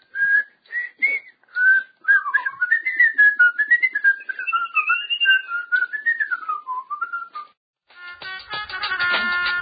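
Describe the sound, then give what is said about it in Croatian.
A person whistles a wavering melody, starting with a few short chirped notes and moving into longer gliding phrases that bend up and down in pitch, clear and fairly loud with no talking. “To što se zviždi ovdje na početku, to nema veze s tim.”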